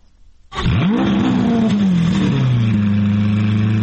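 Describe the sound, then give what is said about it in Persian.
A car engine revs at the Geneva motor show. It roars up sharply at about half a second, then holds a loud, steady, rumbling drone that settles slightly lower toward the end. “این صدای اتومبیل‌های حاضر در نمایشگاه خودروی ژنو است.”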